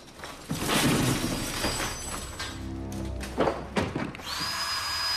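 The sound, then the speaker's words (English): An electric drill being tested gives a brief whirring buzz partway through. Around it are a dense, steady hiss and a few thuds and clunks. “He tests an electric drill”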